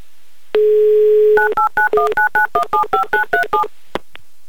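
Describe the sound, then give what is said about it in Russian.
Telephone dialing: a steady dial tone hums for under a second, then a rapid, evenly spaced run of many bright touch-tone keypress beeps, followed by a couple of short clicks. “если вы себя узнали, то берите трубку, потому что я звоню.”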